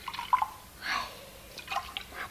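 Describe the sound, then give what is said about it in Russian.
Liquids from small bottles are poured and mixed in a glass, giving a few soft, separate drips and trickling splashes, faint and without talk. “А когда Сима принес стакан, смешал содержимое пузырьков.”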